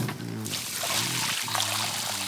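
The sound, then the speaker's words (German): Water pours from a watering can onto garden soil in a steady, continuous splashing trickle that holds an even loudness throughout. “Und jetzt musst du die Erde wässern. Wie mache ich das denn? Nimm doch die Gießkanne da drüben. Die habe ich vorhin erst mit Wasser gefüllt.”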